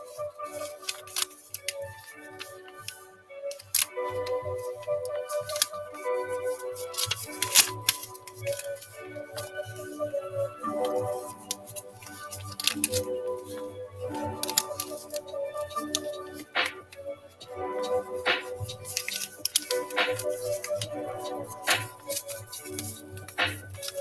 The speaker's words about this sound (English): the nice, beautiful sound of folding is what you are hearing today, I believe.